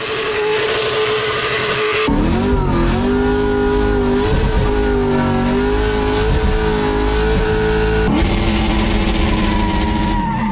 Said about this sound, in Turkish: McLaren'in İngiliz pilotu pistte aracını yüksek tempoyla sürerek dumanlar çıkarttı.